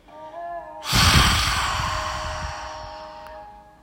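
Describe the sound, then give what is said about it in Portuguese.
One long exhale through a wide-open mouth during a guided breathing meditation, a loud breathy rush that starts suddenly and fades slowly over about three seconds. “Agora a gente vai inspirar de novo pelas narinas, encher os pulmões soltar pela boca, abrindo bem a boca e deixando o ar sair, fluir.”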